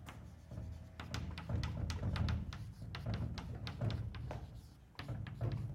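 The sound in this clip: Someone writes on a board during a maths lecture, making a faint, steady run of quick scratchy strokes and small taps that continue throughout, with nobody talking.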